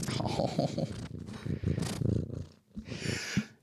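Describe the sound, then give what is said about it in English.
A cat purrs with a low, steady rumble, then rubs its face against the microphone, making rustling, scraping bursts of noise. “What you just heard was the cat. Okay. So. And it was purring, and then it rubbed its face on the microphone.”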